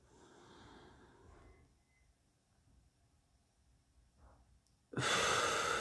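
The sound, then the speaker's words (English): A deep breath, soft and airy at first, then a loud, rushing burst of breath at the very end, with no talk. “One breath.”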